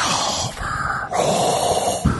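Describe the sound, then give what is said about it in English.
Heavy breathing close into a microphone, several loud, rough, breathy gusts following one another with no words. “Will you stop breathing into the microphone?”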